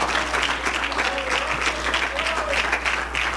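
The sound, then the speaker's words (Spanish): Steady applause from a church audience during a Spanish-language sermon, a dense, even clatter of clapping that runs unbroken from start to finish, with voices faintly mixed in. “Un aplauso a Dios mejor,”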